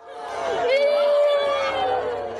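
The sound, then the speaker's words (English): Women wail in a crowd as the bodies of tribal-fight victims are carried through Porgera in Papua New Guinea's highlands: a sustained, high, wavering cry over a low murmur of other voices. “Women wail as the bodies of victims are carried through a crowd in Porgera in PNG's highlands.”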